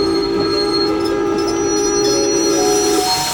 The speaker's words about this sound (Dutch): Hier, op perron 2. Maar de trein is er nog niet. Die zal zo wel komen. Oh, kijk, daar komt hij al aan.